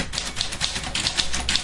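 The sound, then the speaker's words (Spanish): Typewriter keys strike in a quick, even rhythm, many crisp clacks over a dense mechanical rattle that does not stop. “Esa es la máquina. ¿Ves? El sonido de una máquina de escribir. Con un cóctel de sonidos inconfundible.”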